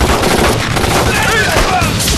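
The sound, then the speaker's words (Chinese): Rifle gunfire erupts in a battle scene as a dense, loud barrage of overlapping shots and blasts that runs without a break for the whole moment. “接上子弹，等他们靠近了再打，争取一枪毙掉一个。”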